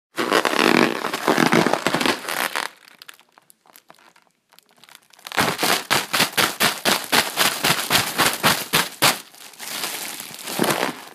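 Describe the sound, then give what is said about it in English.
Crinkling of a deflated Mylar balloon being handled: a burst of dense, papery crackling, a quieter stretch, then many sharp, evenly spaced crinkles in a fast rhythmic run. “That was the sound of me playing with a deflated Mylar balloon.”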